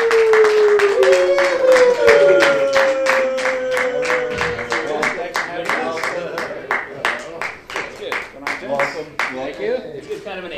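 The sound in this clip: Audience applause greets two guests coming on stage at a show. The clapping is rhythmic and crisp, with a voice cheering loudly over it at the start.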